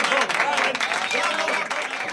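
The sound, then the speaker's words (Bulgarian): Studio applause for a jubilee celebrant: dense, steady clapping that fills the whole stretch, with voices calling out over it. “Да, това са аплодисментите за юбиляра. И от студиото днес му пожелаваме здраве и още много сполуки в словото.”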